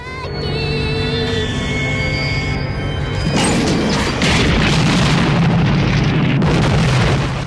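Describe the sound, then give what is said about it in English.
A house explodes into flames: a sudden loud blast cuts in over sustained tonal music, then gives way to a continuous roaring, crackling rumble that lasts to the end. “The house explodes into flames and eventually collapses into a heap of smouldering rubble.”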